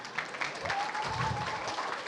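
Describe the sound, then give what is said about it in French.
Birthday applause from an audience, a steady patter of many hands clapping at moderate loudness that carries evenly across the whole stretch. “C'est ton anniversaire aujourd'hui aussi. Joyeux anniversaire. On peut l'applaudir, hein ?”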